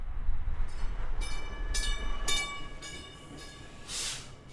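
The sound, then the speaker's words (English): A South Shore Line commuter train pulls into the station in East Chicago, Indiana, with a steady low rumble under a sustained high-pitched tonal whine and a brief rising hiss near the end. “that is the sound of a train, more specifically the Northern Indiana Commuter Transportation District's South Shore Line pulling into the station in East Chicago.”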